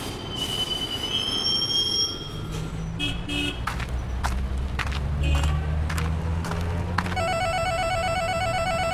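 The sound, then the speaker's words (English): Metal wheels squeal as a train pulls into a downtown station, a shrill, sustained screech riding over a heavy, steady rumble, with a few sharp clanks midway and a tonal signal sounding near the end. “Now arriving downtown Santa Monica Station.”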